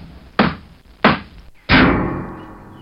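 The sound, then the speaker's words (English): Video-game sound effects during ship repairs, ending with a light bulb breaking: three hard, sharp knocks at an even pace, the last one louder with a longer ringing tail that fades slowly. “Let's do some repairs again.”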